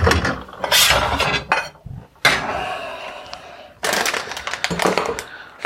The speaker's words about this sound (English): I can put them in a bowl and just break them up a little bit.